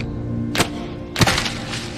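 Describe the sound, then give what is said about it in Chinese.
A slingshot shot hitting a target: two sharp, brief cracking thuds about half a second apart stand out against a steady low background hum. “你要这样，先把弓拉满，等拉满之后再瞄准，再松手。”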